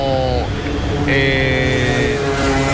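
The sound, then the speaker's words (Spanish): High, droning engine whine of McLaren Formula 1 cars heading out in Miami Grand Prix qualifying. Steady tonal engine notes hold throughout, with a higher-pitched tone joining partway through. “la tercera ronda de calificaciones de este gran premio de Miami. Ahí estamos viendo, arranca en este momento, quedan 11 minutos con 57 segundos. Los primeros en salir son los McLaren.”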